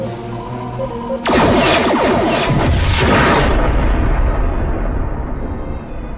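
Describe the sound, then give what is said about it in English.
A starship explodes under torpedo fire: a low steady hum is cut by a sudden, massive blast that becomes a long, loud, rumbling roar and slowly fades. “The other ship has been destroyed.”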